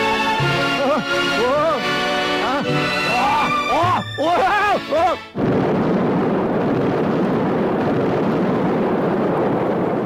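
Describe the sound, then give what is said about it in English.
An explosion goes off during a time-bomb game, blowing the place apart. First, voices wail in long tones that rise and fall, sliding up and down. Then a sudden loud blast breaks in and turns into a sustained, roaring rush of noise that fills the rest. “Guys down at the lodge didn't tell me I'd be blowing the place apart.”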